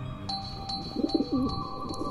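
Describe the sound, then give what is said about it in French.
Pigeon cooing in a quiet small town: a few soft, low, rolling coo notes in a short run, moderately loud over steady background noise with a faint, constant high tone. “Tiens, j'ai déjà vu ce pigeon quelque part.”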